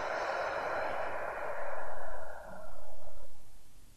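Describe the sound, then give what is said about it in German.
A deep breath is drawn in through the belly and let out again during a seated breathing exercise. It is a slow, airy rush of breath, heard alone without talk. “Wir können das direkt einmal zusammen machen. Atme einmal tief ein in den Bauch und wieder tief aus.”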